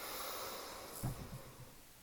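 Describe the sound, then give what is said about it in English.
A single soft nasal inhale during a guided breathing exercise arrives midway through a faint, steady hiss, trailing off quickly into quiet. “I breathe in, I am joy. I breathe in,”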